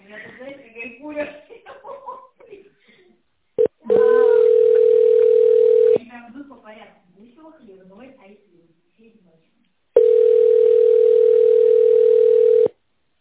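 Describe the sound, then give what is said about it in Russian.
A telephone ringback tone sounds while calling a company: two long, steady, even beeps of two to three seconds each. People talk and chuckle before and between the tones. “Позвоню в фирму Consult.”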